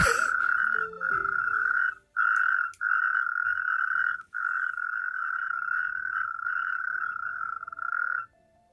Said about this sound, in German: Wie viele Kreuzkröten glaubt ihr hier zu hören?